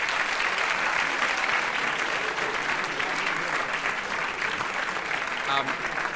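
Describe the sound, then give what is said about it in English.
Audience applause after a debate result is announced, a steady, dense roar of clapping from a large crowd that holds at an even loudness throughout. “So please congratulate the four team for winning the debate.”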